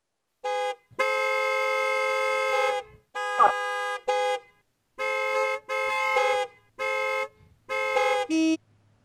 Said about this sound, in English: I don't want him to honk much more.